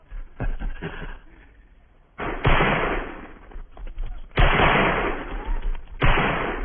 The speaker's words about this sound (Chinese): 报告，我团正在组织实弹射击，请首长指示。